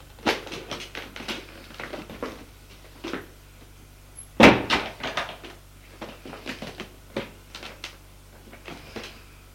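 Someone puts a shoebox back into a cupboard: a scattered series of light taps, knocks and scrapes, with one sharper, louder thump near the middle. No voice is heard.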